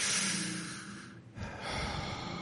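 A deep breath drawn in as a breathing exercise: a loud, airy rush of inhalation that eases off briefly midway, then swells again into a second long, breathy draw of air.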